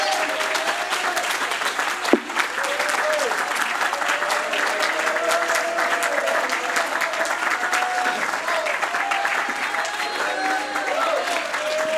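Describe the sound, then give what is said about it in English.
Church audience clapping their hands in praise during a lively worship service: sustained, dense applause throughout, with one sharp louder hit early on and voices calling out over the clapping. “Why don't you give him one more good hand clap of praise?”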